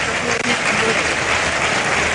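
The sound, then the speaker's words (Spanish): Crowd applause at a bullfight, a dense, steady wash of clapping from the arena audience, loud and unbroken, with a voice talking over it. “Y ahora palma. Sí, lógicamente la ovación cariñosa de público.”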